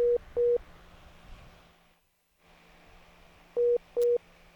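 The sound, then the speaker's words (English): Telephone busy tone after a lost call connection: four short, steady mid-pitched beeps in two pairs, one pair at the start and one near the end, with a faint low hum and a brief near-silent gap between. “All right, we seem to have lost connection there with our caller.”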